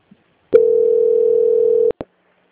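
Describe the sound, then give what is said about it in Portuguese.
Telephone line tone heard while a call to a bank is put on hold and transferred to its quality-control department: one steady mid-pitched tone holds for just over a second, then cuts off into two short clicks. “peço que aguarde em linha, que eu vou transferir o contato para o controle de qualidade”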